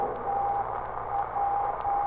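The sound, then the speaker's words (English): A weak Morse code signal on a satellite's frequency, sent from far away: a steady mid-pitched tone keyed into long and short pulses, heard over a constant hiss of radio static. “There, right on the frequency of the satellite, was a weak plaintive signal sending from somewhere far away in Morse code.”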